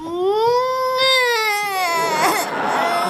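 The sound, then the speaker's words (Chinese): A young boy cries in a loud, sustained wail, the tone wavering slightly and dipping near the end into a broken sob. “不哭不哭”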